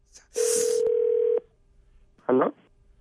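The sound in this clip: Telephone dialing tones during a call: a steady, sustained tone with a noisy onset, then after a pause a single short, separate tone burst.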